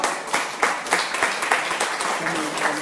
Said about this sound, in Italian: È arrivata Sor Cristina, le facciamo un piccolo